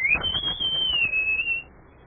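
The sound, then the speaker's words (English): A person whistling to call a horse: one long, high whistle that jumps up in pitch at the start, then holds steady before stopping, over a low background rumble. “Just let me whistle for my horse.”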